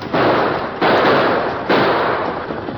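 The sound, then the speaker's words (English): Gunshots crack as two men on horseback exchange fire, three loud, noisy blasts at irregular intervals, each trailing off into a long rough decay that overlaps the next. “Both Purdy and the masked man fired again, exchanging shots, then fired again.”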